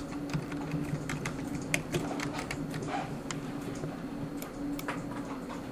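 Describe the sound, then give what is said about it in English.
Keys clicking as a password is typed on a computer keyboard: many quick, irregular taps over a steady low hum, fairly faint throughout. “And then type in your password here.”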